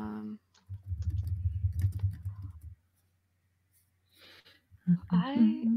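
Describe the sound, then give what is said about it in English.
Fast typing on a computer keyboard: a dense patter of light key clicks lasting about two seconds, followed by a pause and then someone talking. “I have to type things.”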